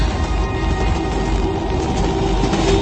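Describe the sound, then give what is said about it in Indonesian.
A steady, droning rumble from a train engine heard among sleeping passengers: a continuous low hum with a broad noisy wash above it, even in level and unbroken for the whole stretch. “kulihat semua penumpang tertidur, seakan tertutup suara mesin kereta.”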